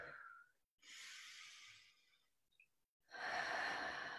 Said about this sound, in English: take a nice deep breath in. do that again.